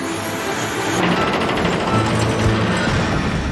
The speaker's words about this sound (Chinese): 绞盘启动。